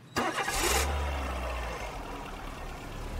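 A car engine starts with a sharp cranking burst and catches into a loud, steady mid-pitched rumble, which eases slightly as it keeps running.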